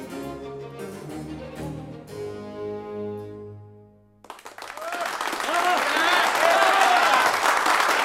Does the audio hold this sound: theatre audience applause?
yes